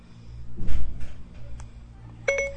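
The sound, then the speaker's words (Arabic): A phone call being dialed and then cancelled: soft handling noises and rustling, followed near the end by a short electronic beep. “طبعا اتصل وألغيت الاتصال.”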